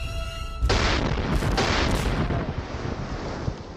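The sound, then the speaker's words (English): Gunpowder cannon fire on a battlefield: a sudden heavy boom erupts into a sustained, roaring rumble, with two brighter blasts landing on top of it. “For the first time on a European battlefield, the English used gunpowder to fire cannonballs at the French forces.”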